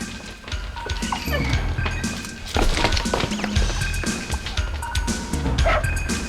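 A black-and-white cocker spaniel barks, giving many sharp barks and yips scattered across the stretch, loud against a busy background.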